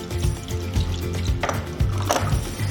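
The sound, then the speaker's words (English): Liquid drains from a can of standard canned beetroot, pouring out in a steady, continuous splashing trickle with a few louder spills along the way. “And we're going to put some beetroot, just standard canned beetroot, into the mix. There we go, just drain that off into here.”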